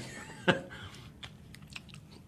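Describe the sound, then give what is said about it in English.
Chewing and biting into a soft, loose food the colour of peanut butter with a slight crunch: one sharp, crisp bite stands out, followed by a few faint chewing sounds. “It's going to be kind of hard and sloppy to eat, but I'm going to try it.”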